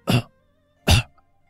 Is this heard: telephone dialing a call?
no

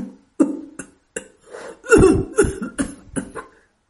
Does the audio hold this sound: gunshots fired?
no

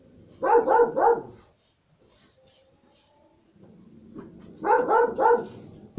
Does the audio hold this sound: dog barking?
yes

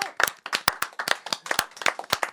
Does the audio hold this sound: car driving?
no

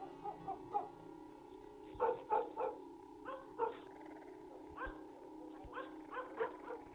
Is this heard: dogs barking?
yes

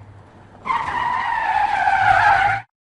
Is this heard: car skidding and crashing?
yes

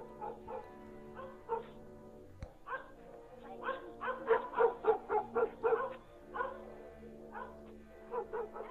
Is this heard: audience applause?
no

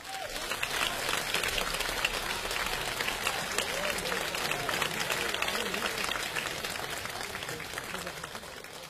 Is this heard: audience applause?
yes

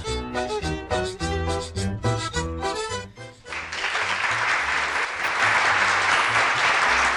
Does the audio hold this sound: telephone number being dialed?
no

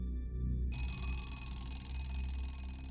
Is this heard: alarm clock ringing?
yes

